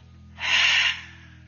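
A single deep breath drawn in during a mindful breathing exercise, a smooth, airy inhalation that swells, holds briefly and then fades, heard alone over a low steady hum.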